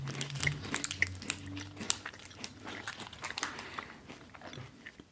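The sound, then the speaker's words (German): Someone bites into a Hanuta wafer bar and chews it, making many small, crisp crunches and crackles at a faint level, with no talk. “Also jetzt dann probieren wir jetzt den Hanuta-Riegel.”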